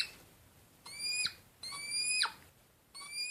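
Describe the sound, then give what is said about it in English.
Hedgehogs mating make high, thin, shrill squeaks in three separate bursts, each a cluster of whistling squeals, with quiet gaps between them. “That was the sound of a hedgehog, or in fact the sound of hedgehogs getting it on during mating season,”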